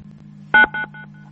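Telephone keypad dialing tones on an automated phone line: two short, loud electronic beeps in quick succession, then a couple of fainter tones trailing off over a low, steady hum.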